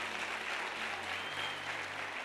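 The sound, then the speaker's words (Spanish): A church audience applauds, giving dense, even clapping that holds steady throughout at a fairly soft level, with a low hum underneath. “si le va a dar un aplauso al Señor, déselo de verdad”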